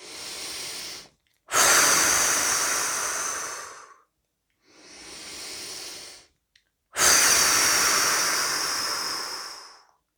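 Slow, deliberate breathing during a guided relaxation exercise, with two long, airy exhales of about two and a half seconds each. Each exhale follows a shorter, softer inhale, and the breath sounds are loud and alone.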